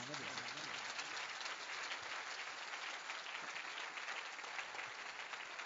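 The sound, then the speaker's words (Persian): An audience claps heartily, a steady, dense patter of many hands that continues evenly without pause for several seconds. “هرچقدر لذت بری دست جانانه بزن”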